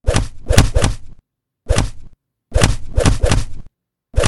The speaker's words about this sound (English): Are you going to cry from being punched in the face repeatedly after you spat at your own wife?